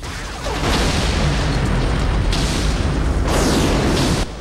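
A line of explosions set off by detonators one after another down a street: loud, rumbling booms with sharp fresh bursts roughly every second, over a heavy, sustained low roar.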